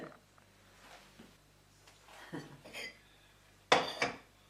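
Plates clink and clatter as they are handled, soft scattered clinks at first, then a louder cluster of clattering near the end over a quiet background.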